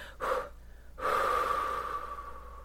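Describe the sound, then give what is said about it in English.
Breathing during a guided relaxation exercise, in through the nose and out through the mouth: a short breath is followed by a long, steady, drawn-out breath that lingers softly to the end. “breathing in, breathing out, and doing it at your own pace.”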